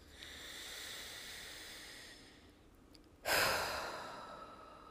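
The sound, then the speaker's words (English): A full, deep breath in followed by a long breath out: a soft, steady, airy inhale, a brief pause, then a louder, hissing exhale that fades gradually. “Finishing with a full deep breath in and a long deep breath out.”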